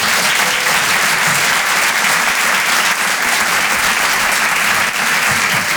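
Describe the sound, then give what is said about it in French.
Audience applause at a live comedy club show, a steady, dense wash of clapping that stays loud and even from start to finish. “Faites du bruit pour Harold Barbet.”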